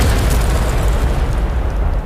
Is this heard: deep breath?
no